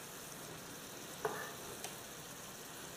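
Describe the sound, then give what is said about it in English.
Beef sears in a hot pan with a splash of Worcestershire sauce, giving a faint, steady sizzling hiss broken by a couple of soft ticks. “I just want to get a little sear on this beef, which is starting to happen as we speak.”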